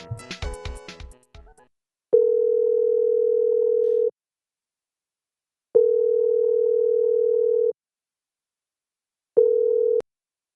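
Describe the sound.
Touch-tone telephone dialing, a quick run of key tones, followed by three long, steady ringback tones separated by silent pauses, the last one cut short. Nobody answers.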